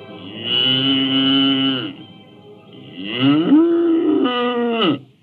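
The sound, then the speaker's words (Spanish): Two large bulls mooing, two long, loud, low bellows with a rich buzzy tone separated by a short pause, the second call longer and bending upward in pitch before cutting off. “Eran dos toros bravos, de gran tamaño y peso completo, los que acababan de hacer su entrada en Granja Latina.”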